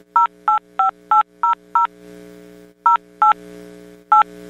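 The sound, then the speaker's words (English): Touch-tone telephone keypad tones played as a song: nine short, bright beeps. Six come in a quick even run, then after a pause three more follow, spaced apart, over a faint steady hum. “what I want to do is try playing the touch tone song.”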